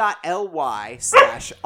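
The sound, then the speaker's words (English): A dog barks and yelps a few times in short, loud bursts, with drawn-out whining tones between them. “Your dog really doesn't like our like us getting paid this week. He doesn't like the fact that we sold out.”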